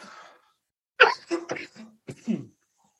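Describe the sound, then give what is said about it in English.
Coughing and throat clearing from a person recovering from a month-long illness: a faint sound, then a few short, harsh, rasping bursts in quick succession, with a final gruff clearing. “So I apologize for the coughing”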